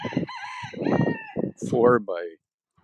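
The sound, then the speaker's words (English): Chickens clucking inside a 4x4 chicken coop with a wire-frame run beneath it, at a farm in Bear River, Nova Scotia, on a windy afternoon. A voice talks first, then two short, loud bursts of bird calls follow. “these chicks are actually in the shelter.”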